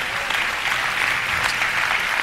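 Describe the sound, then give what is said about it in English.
An audience claps their hands during worship, a dense and steady patter of many hands that lasts from start to finish. “Clap your hands and praise his name.”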